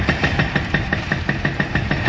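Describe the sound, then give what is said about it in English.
Engine of machinery tearing down a Palestinian house on a hillside beneath Jerusalem's walled old city, a loud, steady mid-pitched rumble with a rapid, even throbbing pulse and no voices. “hillside beneath Jerusalem's walled old city, I watch a Palestinian house being torn down.”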